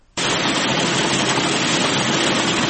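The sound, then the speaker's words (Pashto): A machine cleaning harvested pistachios in Kandahar's Daman district starts abruptly with a loud, dense mechanical roar that runs on steadily without change. “په دې ماشینونو کې د کروندګرو لخوا د باغ څخه ټوله سوې پسته پاکیږي”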